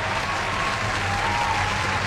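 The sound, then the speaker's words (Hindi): A crowd gives loud applause for a contest's season winners and runners-up, a thick, continuous roar of clapping that stays steady from beginning to end. “एक बार जोरदार तालियां हो जाए जी,”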